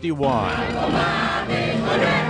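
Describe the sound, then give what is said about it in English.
Crowd cheering and shouting in the street outside the Cuban embassy in Washington as several hundred people gather on the day Cuba's flag is raised there; loud, overlapping raised voices form a continuous, tonal roar. “Several hundred people gathered in the street outside the embassy in Washington, many cheering, others denouncing the improvement in relations between the U.S. and Cuba.”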